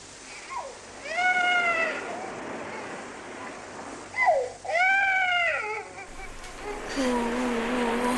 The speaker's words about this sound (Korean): 아휴, 아가야 울지마. 아휴, 울지마. 울지마, 울지마.